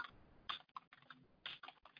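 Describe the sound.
Typing on a computer keyboard as a note is entered into an online form: quick clusters of crisp keystrokes in short bursts, separated by brief pauses.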